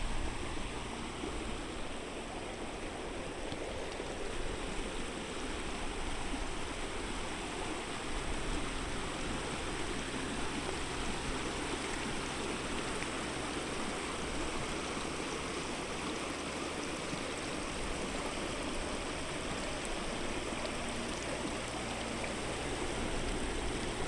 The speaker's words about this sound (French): L'eau s'écoule doucement ici. Elle recouvre les rochers tapis dans le lit de la rivière, puis s'infiltre sous vos pieds